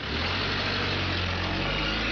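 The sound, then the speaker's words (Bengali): A car engine drones steadily as the car pulls away through a dusty city, a constant, even, broad rumble that neither rises nor fades, with no voices. “শ্রাবণীর গাড়িটা শহরের ধুলোর আড়ালে হারিয়ে যাওয়া অবধি সেদিকেই তাকিয়ে রইল সে।”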